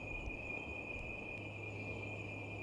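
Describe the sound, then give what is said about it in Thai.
Insects chirping during a Buddhist dharma talk, a faint, unbroken high-pitched trill held at one steady pitch over a low background hum, with no voices. “เสียงแมลงเขาร้องเสียงแมลงเขามาแมลงเราก็ไปตั้งชื่อให้เขา”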